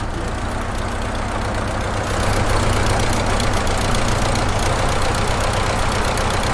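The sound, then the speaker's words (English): An engine running right after being cranked, a motor that cranks inside the engine and needs a cover to stop it spitting oil. It makes a loud, steady, rough chugging idle that grows a little louder partway through. “Yeah, it cranks inside the motor, which is unusual too. There we go. Running quite nicely there”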